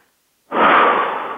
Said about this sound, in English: And I just want you to close your eyes, everyone, and take a breath.